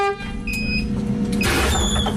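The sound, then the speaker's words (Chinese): A rural school bus drives slowly along a winding mountain road, giving a steady, loud, rumbling engine and road drone that continues throughout without a break. “家长送孩子上车刷卡，汽车沿着蜿蜒山路缓缓向着横渡中心学校驶去。”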